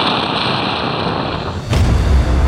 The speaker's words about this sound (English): Counter 9 detonated the entire South Pole thermonuclear array.